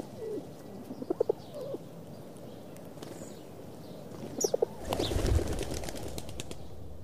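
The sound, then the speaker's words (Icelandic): Pigeons cooing in the town of Siglufjörður, Iceland: soft, low, pulsing coos come in a few short bursts, quiet and spaced apart, with no talk. “Hér áður fyrr voru dúfur í flestum bæjum á Íslandi, en í dag sjást þær varla, ekki einu sinni á torgum höfuðborgarinnar.”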